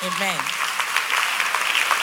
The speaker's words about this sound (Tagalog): clap for Jesus